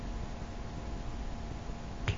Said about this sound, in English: Finger snap.